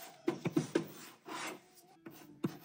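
Quiet rasping rubs on a surface come as several short scratchy strokes in quick succession, then one longer sweeping rub, followed by a couple more brief strokes.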